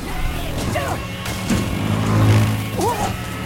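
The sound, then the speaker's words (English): A vehicle driving jerkily through foliage, its low engine rumble broken by thumps, rustles and whacks as leaves and branches strike, loud throughout. “He dons a crash helmet and goggles and turns the ignition key. Let's see what you got. He drives jerkily, then at speed through the foliage. Leaves and branches hit him.”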